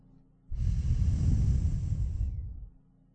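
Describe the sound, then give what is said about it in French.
A slow exhale through the nose during a breathing exercise, just after the index fingers are lifted from the nostrils: one long, soft breathy whoosh lasting about two seconds, holding steady before tapering off alone. “Dégageons à nouveau nos index de nos narines pour expirer l'air lentement par le nez.”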